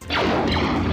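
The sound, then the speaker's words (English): A science-fiction blaster sound effect: two quick, loud laser zaps that overlap in one burst, each a bright tone sweeping sharply down in pitch. “Oh, blasters sound like this.”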